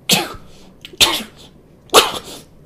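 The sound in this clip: A child sneezes three times in quick succession. Each sneeze is a sharp, breathy burst, about a second apart, with quiet gaps between them.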